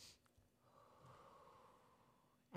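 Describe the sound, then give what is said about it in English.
A long, slow, faint inhale is drawn as part of a relaxation breathing exercise. It is a soft, airy rush of breath that swells gently and holds for a couple of seconds in near silence. “Deep breath in. One short one at the top.”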